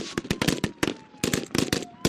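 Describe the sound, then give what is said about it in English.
Sharp gunshot cracks ring out during a mock terrorist kidnapping drill of a government official at an outdoor reviewing stand, coming in many quick, irregular shots with short gaps between bursts. “Suddenly, shots fill the air. It's a mock terrorist kidnapping of a government official.”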